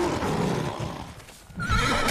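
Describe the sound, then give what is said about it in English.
A horse neighs with a brief, high whinny near the end, rising out of a noisy scuffle background. “Enkidu, no! They're just horses. We don't hurt them.”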